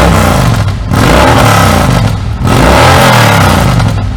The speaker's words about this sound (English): You're gonna definitely hear that on this bike. The 2-in-1, you can hear it changes the tone a little bit, but what most people are gonna notice is that decibel level.